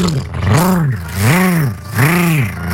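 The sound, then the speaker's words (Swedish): A voice imitates a lawnmower engine with a buzzy, droning hum that swells and sinks in pitch three times, like an engine revving up and settling back. “Men alltså min gräsklippare, den låter alltså, det så här. Nu ska jag ge mig i kast med att härma min gräsklippare.”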